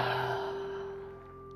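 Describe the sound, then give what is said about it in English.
A soft exhale through the mouth during a guided breathing exercise, a gentle breathy rush that fades over about a second, over faint steady background tones. “And a nice inhale through your nose, nice and full. And exhale through your mouth.”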